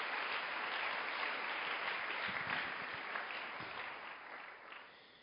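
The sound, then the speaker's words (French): Applause from an audience at a church worship service, a dense, steady patter of many hands clapping together, holding level and then fading gradually toward the end. “Acclamez le Seigneur pour vous-même.”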